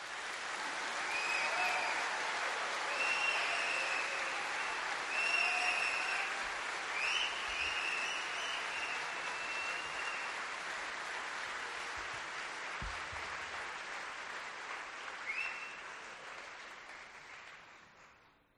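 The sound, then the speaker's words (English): Steady audience applause welcomes a guest speaker, a dense patter of many hands that holds at an even level for nearly twenty seconds before it cuts off. “let's just give him a warm welcome, please.”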